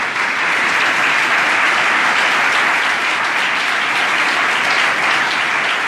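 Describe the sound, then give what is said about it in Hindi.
Dense applause fills a church worship service as the audience claps loudly in praise of the Lord, steady and unbroken for about six seconds with no voices standing out. “खुदावंद के लिए जोरदार तालियां बजाएं”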